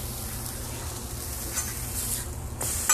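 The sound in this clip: Meat fries in a pan, seasoned with adobo and sazon and pressed down to cook: a steady, fairly quiet sizzle with occasional light scrapes and clinks of stirring, and no voices.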